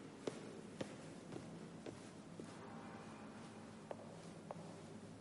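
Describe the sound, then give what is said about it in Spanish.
Footsteps of a queen descending stairs: faint, soft taps at a slow, fairly even pace, about seven steps with a short pause midway, over a steady low hiss. “Baja las escaleras y se dirige a Debeir.”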